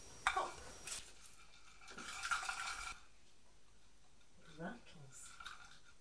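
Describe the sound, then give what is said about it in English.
Balls of silver foil rattle inside a yoghurt pot in two bursts of dry, crinkly shaking, with a voice heard briefly afterwards. “Should we roll the silver paper into balls? And put it into the yoghurt pot. Makes a noise, doesn't it?”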